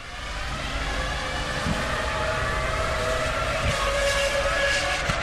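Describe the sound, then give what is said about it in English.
Formula One racing cars roar past, their engines a continuous loud, high-revving scream with a steady whine that holds throughout. “Well, okay, for comparison, here's the sound of F1 cars.”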